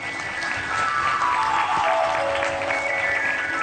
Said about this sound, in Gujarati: એકવાર અમારા ભાભાને તાળીઓથી બતાવો.